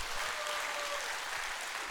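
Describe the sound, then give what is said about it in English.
Steady audience applause, a dense, even patter of many hands clapping that holds at a constant level for the whole stretch, with no voices on top. “If you've ever applauded for prayer, you need to do it right now.”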